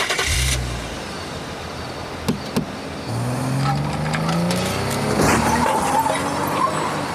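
A car approaches and drives into a curve on the road, its engine running steadily with a couple of brief sharp knocks, then an engine note that climbs gradually in pitch as it gathers speed.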